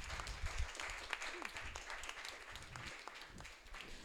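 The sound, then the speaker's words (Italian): Soft applause for a poet at a book presentation: scattered clapping from a small audience, quiet and uneven, thinning slightly toward the end. “Lei, c'è un applauso perché...”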